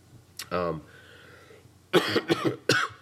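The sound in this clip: A person coughing, with a few quick, harsh coughs in close succession after a brief bit of speech.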